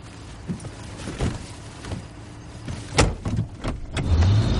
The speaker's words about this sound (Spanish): El policía monta en el coche.